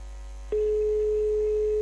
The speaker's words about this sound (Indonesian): Tunggu, Mama telepon Papa dulu ya.